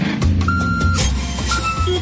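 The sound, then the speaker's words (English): A truck reverses with a low, rumbling engine under two steady, high-pitched reversing beeps, each lasting about half a second and separated by a short gap. “Can you hear that? That's the sound of truckloads of new entertainment being delivered on Foxtel.”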